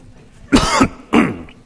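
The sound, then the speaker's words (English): A person coughs after something goes down the wrong pipe, giving two short, harsh coughs separated by a brief pause. “Excuse me. Excuse me, wrong pipe.”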